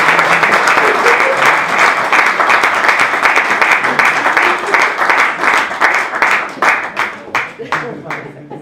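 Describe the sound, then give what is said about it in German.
Audience applause welcoming two announced guests: loud, dense, steady clapping that gradually thins into more separate, scattered claps toward the end. “im Fußballstadion würden wir sie jetzt sauber begrüßen und dann einen Applaus geben.”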